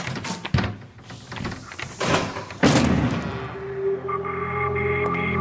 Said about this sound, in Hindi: लगता है दरवाजा तोड़ना पैना है।